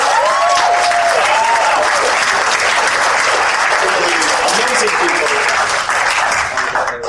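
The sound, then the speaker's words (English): A panel audience gives loud, sustained applause while voices talk over it, and the clapping thins out near the end. “I know you're tired of clapping, but get a round of applause for our street team who has tirelessly spread the word about this panel.”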